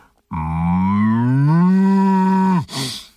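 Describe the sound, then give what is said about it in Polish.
A human voice imitates a cow mooing with one long, loud, low moo. It lifts slightly in pitch midway, holds steady, then drops away, followed by a short breathy burst. “a ja potrafię zrobić krowę, bo to był kogut robiony ręcznie z buzi. Ja krowę panu zrobię, uwaga.”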